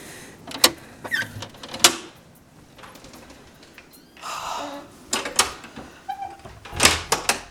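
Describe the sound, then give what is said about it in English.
A door at a hall is handled after a walk back through calming weather: several sharp clicks and knocks, separated by quieter rustling and a brief soft rush. “Can you hear that? It's the sound of the door, sound of the warm, sound of the calm.”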